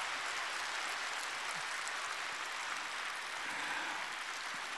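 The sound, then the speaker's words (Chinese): Sustained applause from an audience at the close of a speech: dense, steady clapping holds at an even loudness throughout, with no voices over it. “哎呀，雷鸣般的掌声”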